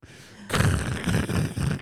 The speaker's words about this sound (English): Just machine gun fire. Damn, son, where'd you find this?